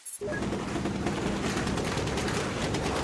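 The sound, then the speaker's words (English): Gunfire from gun battles in a Tripoli neighborhood, a dense continuous burst of rapid automatic fire that stays loud from start to finish. “The sound of gun battles in one neighborhood and scenes of jubilation just in the next neighborhood over.”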